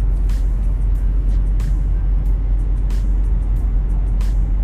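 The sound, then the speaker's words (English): A car on a long-distance drive gives a loud, constant low road rumble and engine drone, with faint, brief clicks scattered over it. “Especially when I'm driving long distances, which I am currently.”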